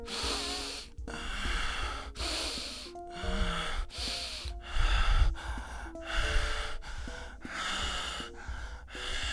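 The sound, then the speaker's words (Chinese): Heavy, rapid breathing demonstrated louder to convey intense arousal: many loud, breathy inhales and exhales in a quick, steady rhythm, about one a second, with no talk. “首先我们当然是要先把呼吸声放大嘛，变得急促哦，我现在欲火焚身的那个状态，所以原本我们可能是这样的呼吸有点薄弱，我们把它加大。”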